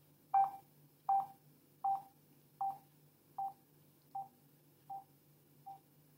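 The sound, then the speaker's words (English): A phone speaker gives soft electronic beeps while the volume-down button is held. Eight evenly spaced high tones grow steadily fainter over a low background hum. “now I've just released it now, and that's when I heard the last very, very soft beep coming out of the speaker.”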